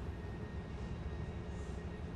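A steady, low engine drone aboard a plane carrying troops at twilight, a constant rumble that holds evenly with no breaks and no voices.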